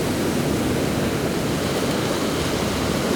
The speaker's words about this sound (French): juste derrière, c'est le ressac des vagues.